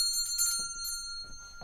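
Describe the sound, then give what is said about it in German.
A small bell rung by pulling a bell pull gives several quick, high, tinkling strikes. The ringing is faint and brief, with a low murmur underneath. “Ziehen Sie die Klingel, habe ich gesagt.”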